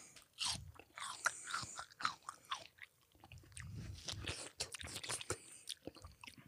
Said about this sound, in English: Are you sucking as you bite?